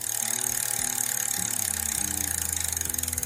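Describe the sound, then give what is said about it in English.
A prize wheel spins with a rapid, steady run of mechanical clicks from its ratchet pointer. The clicks keep a fairly even pace throughout, with a faint low hum beneath. “spin that wheel for the last time.”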